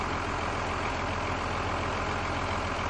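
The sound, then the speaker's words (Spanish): A tractor engine drives through countryside, giving a loud, steady rumbling drone that runs unbroken through the whole clip with no voices. “Circulan por el campo en el tractor.”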